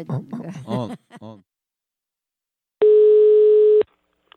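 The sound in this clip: A telephone line tone while a call is being placed: one steady, clean beep about a second long, sounding after a stretch of people talking and a short silence.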